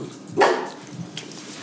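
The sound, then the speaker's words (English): A single short dog bark, fairly faint, rising out of quiet background noise, with no other barks after it. “That's my dog, Teddy.”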